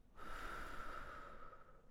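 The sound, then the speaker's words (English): One deep breath of a relaxation exercise, drawn into the belly and let out through the mouth, gives a soft, steady airy rush lasting about two seconds, faint and alone. “So just take a deep breath into your belly and breathe out through your mouth or your nose.”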